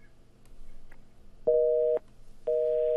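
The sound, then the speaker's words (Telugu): Busy tone on a phone line after a call is disconnected: two short, steady, identical beeps at a flat mid pitch, each about half a second long, following a stretch of faint line noise. “So call cut అయిపోయింది.”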